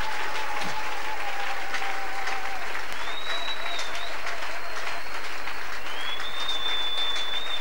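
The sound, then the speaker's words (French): Audience applauding and acclaiming God, a dense, steady wash of clapping that runs through the whole clip, with a faint sustained tone heard over it. “Est-ce que tu peux encore acclamer le Dieu qui vient de te parler?”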